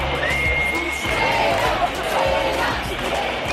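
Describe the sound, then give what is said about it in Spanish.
A crowd boos the Spanish prime minister as he appears at the National Day parade in Plaza de Lima. The continuous mass of jeering voices stays fairly even in loudness throughout. “Estos son los abucheos que se han oído en la Plaza de Lima en el momento en el que ha aparecido el presidente del gobierno en el desfile del día de la fiesta nacional.”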